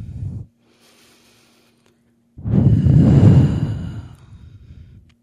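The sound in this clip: One deep breath: a long, airy rush of breath lasting a couple of seconds that swells and then tapers off. A short breathy sound and a quiet pause come before it.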